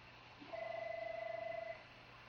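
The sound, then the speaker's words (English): A telephone rings once, a faint warbling trill of two steady tones lasting just over a second over a low, quiet hum. “you might hear some phone ringing in the background”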